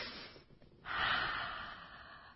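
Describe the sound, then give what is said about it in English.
A deep breath: a sudden, airy inhale that swells loudly and then slowly tapers off, preceded by a few faint, softer breathy sounds. “And you can even take a nice deep breath with it.”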